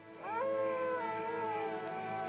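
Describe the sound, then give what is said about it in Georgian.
A coyote howls at night: one long, clear wailing tone that climbs quickly, then holds steady and slowly sags in pitch, loud and sustained with strong harmonics. “შხამიანი გველები ხვრელებიდან ღამის ნადირობაზე გამოდიან. მათ კოიოტები უერთდებიან.”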